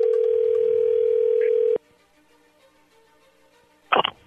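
A telephone rings on an outgoing call as a steady low tone that lasts almost two seconds, then stops. After a stretch of near silence, a short noisy burst follows.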